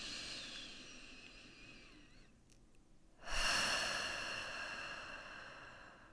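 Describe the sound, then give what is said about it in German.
A deep breath during a guided group breathing exercise is a soft, airy rush that swells suddenly midway and then slowly fades, faint overall, with a quiet steady hiss before it. “lass uns mal gemeinsam tief ein- und ausatmen”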